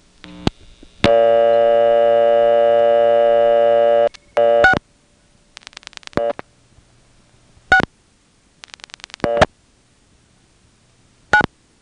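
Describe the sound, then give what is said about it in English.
A telephone number is dialed on a phone line with connector switch equipment: a steady dial tone holds for a few seconds and cuts off, followed by several groups of rapid clicks separated by pauses. “Let's see what's on 6. I'm going to dial 6699.”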